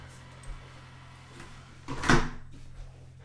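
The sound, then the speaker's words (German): A window being shut in a house in the countryside, heard as a brief rattling thud after a soft shuffle, alone against a low steady hum. “Ich muss jetzt mal kurz das Fenster hier zumachen”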